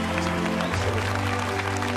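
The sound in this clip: Applause from an award ceremony audience, a steady wash of clapping over low, sustained tones.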